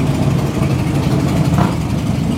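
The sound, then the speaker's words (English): Motorcycles ride past as a loud, steady, low engine rumble that stays constant throughout, with no distinct individual pass-bys standing out. “Some more bikes coming through.”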